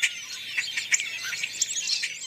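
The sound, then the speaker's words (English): Starlings calling, fruit-eating birds feeding alongside a flock: many short, high chirps and tweets in quick, irregular succession, fairly bright and with no voices over them. “Sometimes other fruit-eating birds, such as these starlings, accompany them.”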